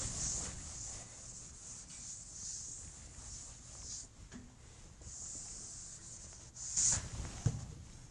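During a lecture, a pen rubs faintly and continuously as a reasonably straight line is drawn across a board, a soft, steady scraping with a slightly louder scrape near the end.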